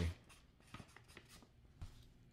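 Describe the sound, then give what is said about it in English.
Faint scratchy strokes of a pen writing the letter J on a bag, a few soft irregular scrapes and taps with no talk. “So I'm going to write J on this bag. J.”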